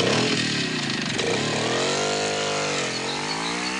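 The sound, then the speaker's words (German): A motorcycle rides away with a loud, buzzing engine whine whose pitch climbs and dips repeatedly as it accelerates. “Dann schlenderte er betont lässig zu seinem Motorrad und fuhr davon.”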